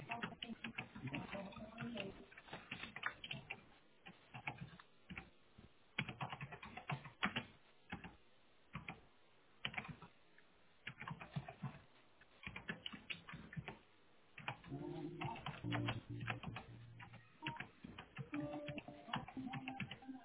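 Computer keyboard typing as a service request for an intercom installation is entered: many quick, irregular keystrokes in bursts with short pauses, muffled and narrow-sounding throughout.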